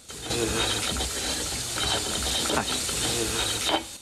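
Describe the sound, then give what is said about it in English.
A large light bulb is unscrewed from its fitting in a men's room, giving a continuous rasping, ratchet-like grinding with repeated small clicks and squeaks that runs steadily for several seconds. “unscrews a large light bulb and toys with it”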